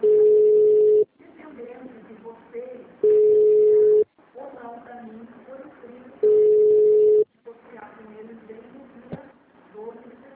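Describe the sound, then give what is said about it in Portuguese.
Telephone hold tone while a bank call is transferred: three long, steady, mid-pitched tones, spaced a few seconds apart, with a recorded automated voice speaking between them. “Aguarde, estamos transferindo sua ligação para um de nossos atendentes. Você será atendido em até 45 segundos.”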